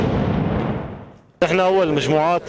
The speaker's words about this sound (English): Some of the bombs are buried in the asphalt, and there is no way of defusing them, so we blow them up.